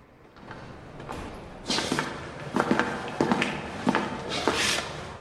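Two prison guards walk down a corridor, their footsteps a steady series of firm, evenly spaced steps over a low background hush.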